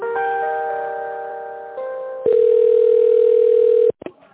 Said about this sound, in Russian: сейчас переведу звонок